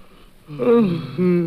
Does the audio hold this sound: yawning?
yes